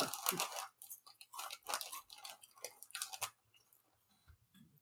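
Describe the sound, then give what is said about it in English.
Cheetos being crunched and chewed during a snack taste test: a faint series of quick, crisp crunches that stops after about three seconds, followed by softer sounds. “This is like one of, one of my favorite Cheetos flavors I've ever had.”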